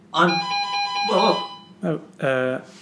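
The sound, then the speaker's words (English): A doorbell rings downstairs with a sustained, steady electronic ringing tone of bright, even pitch, heard near the start under talk, followed by people speaking. “No, it's not the alarm, it's the doorbell downstairs.”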